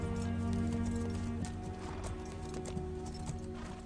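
Horse hooves trotting give a steady, even clip-clop rhythm, faint and continuous through the short stretch, with no voices.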